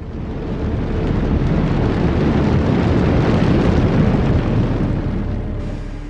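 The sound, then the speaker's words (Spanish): A nuclear missile launches from a submarine with a deep, loud, rumbling roar. The blast holds steady for about six seconds and eases slightly at the end, with no voices. “El cohete le impulsa al espacio y cada cabeza de guerra es enviada hacia su objetivo seleccionado. El 13 largado.”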